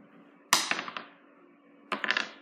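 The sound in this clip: A six-sided die is rolled twice on a hard surface during a tabletop game. Each throw starts with a sharp clatter, then a few quick bounces that fade away. Both rolls are faint, with no talk.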